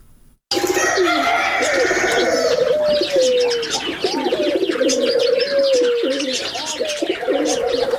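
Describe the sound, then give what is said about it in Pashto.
Doves coo and other birds chirp at a bird zoo holding dozens of species near Tarinkot in Uruzgan province. The dense, layered calls begin abruptly after a brief quiet moment and continue loudly. “د دغه ولایت په دغه ولایت کې د مرغانو ژوبڼ جوړ کړی دی. نو موړی په د ژوبڼ کې لسګونه ډوله مرغان لري چې هر ورځ لیدو ته ګڼ کسان ورځي.”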